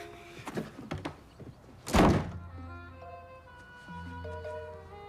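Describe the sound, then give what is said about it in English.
A door opening and shoes being thrown out make a few short knocks, then one loud, heavy thud about midway, followed by a quieter tonal background. “The door opens again, and the girls hurl Jesse and Chester's shoes out at them.”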